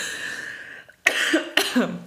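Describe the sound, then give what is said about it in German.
Two sharp coughs break out after a short pause, each a sudden harsh burst followed by a rougher throaty tail, with a voice heard just before them. “Da musst du direkt husten.”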